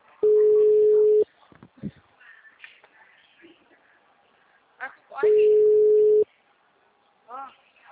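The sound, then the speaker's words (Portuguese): A telephone busy tone after a dropped call: two long, steady, mid-pitched beeps of about a second each, several seconds apart, with people talking in the gap between them. “Caiu a ligação do nada.”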